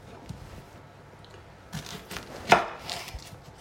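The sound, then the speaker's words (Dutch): A knife chops through onions in a few crisp, crunchy cuts with an uneven rhythm. The cuts are fairly faint, with one louder cut near the middle and quiet background noise in between. “Echt beste techniek om je ajuinen te snijden. Je snijdt ze eerst in twee dan snijd je topje er vanaf.”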